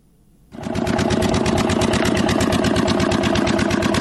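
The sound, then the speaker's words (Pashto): A diesel generator powering a pipe-making factory starts abruptly and settles into a fast, steady, rhythmic chugging that stays loud and even, with no talk. “لدی جنراتور څخه د پایپ جوړولو د فابریکې لپاره برېښنا برابرېږي.”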